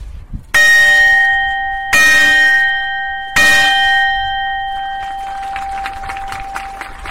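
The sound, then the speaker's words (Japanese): A ceremonial bell struck three times at a tsunami remembrance award ceremony in Onagawa: three loud, evenly spaced metallic strikes, each blooming into a bright, sustained ring that overlaps the next and fades slowly after the last. “鐘を3回叩いてください”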